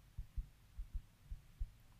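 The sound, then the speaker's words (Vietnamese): A pounding heartbeat sounds as six low, muffled thumps in a lub-dub rhythm, faint and heard alone. “Tim tôi đập thật mạnh.”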